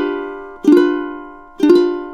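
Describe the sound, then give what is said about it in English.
A G7 chord strummed on a ukulele: two bright strums about a second apart, each ringing out and fading slowly, over a sustained tone carried from before. “What if I were to play a G7 chord? Another very common chord. Here it goes on its own.”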